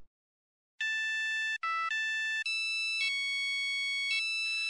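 A phone ringtone for an incoming call: after a short silence, a bright electronic melody steps between a few clear pitches, loud and alone, with brief gaps between its phrases.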